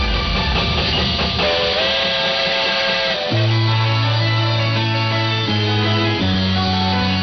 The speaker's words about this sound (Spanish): El tren sigue su marcha.